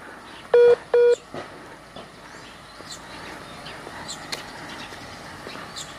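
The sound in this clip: Two short touch-tone dialing beeps as a telephone is dialed to reconnect a dropped call, followed by quiet background hiss with a few faint clicks.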